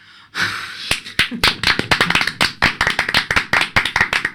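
Hands clapping in tribute to the composer of a song, a loud run of many sharp, distinct claps in a quick, fairly steady rhythm that follows a brief burst of noise at the start.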